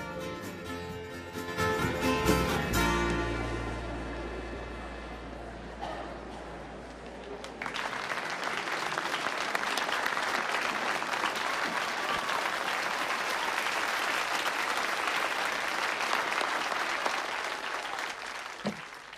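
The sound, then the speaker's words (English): Audience applause fills a large, packed theatre as a man walks onto the stage. Dense, steady clapping breaks in after several seconds of quieter sound and stays loud and even to the end. “Everyone applauds as a man enters the stage.”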